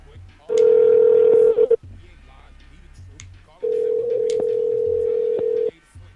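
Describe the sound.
Telephone ringback tone on an outgoing call: two long, steady, mid-pitched tones separated by a quiet gap, the second lasting longer than the first.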